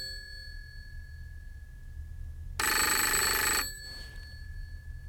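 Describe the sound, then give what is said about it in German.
A telephone rings once in a ship's cabin at night: a loud, bright ring of about one second that starts and stops abruptly over a steady low hum, with no voices. “Was war das? War das nicht... Telefon.”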